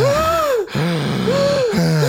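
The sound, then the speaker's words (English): Loud, improvised breath work with exaggerated, voiced breaths. A few long, strained gasps swell and sag in tone, separated by short breaks. “Should we do an improvisational bit of breath work?”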